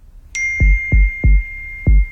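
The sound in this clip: An electronic ding tone starts sharply and rings on as a steady high pitch, joined by four dull, low thumps in an uneven rhythm.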